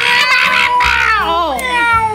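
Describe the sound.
A cat meowing in drawn-out, loud, harmonic cries whose pitch wavers and dips in the middle of the call.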